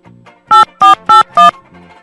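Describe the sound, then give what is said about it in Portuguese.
Telephone being dialed: four short, loud tonal beeps in an even rhythm, framed by fainter, softer tones just before and after. “Deixa eu ligar pro Faustão da Cracolândia, pera aí.”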